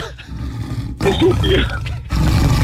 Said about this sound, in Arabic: تخيل هذا يطلعنا بالليل انا وياك. نمر يعني نمر. هذا نمر نمر.